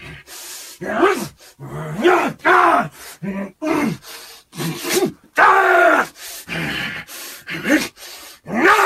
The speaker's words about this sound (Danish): Han står og slår ud i luften, samtidig med at han growler som en sur ulv, og han råber og gør ved.